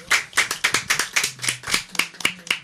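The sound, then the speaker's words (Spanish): A small group applauds a doctoral student in a radio studio with many crisp, distinct handclaps. The claps fall in a quick, fairly even rhythm with no talking over them. “Este aplauso para ti”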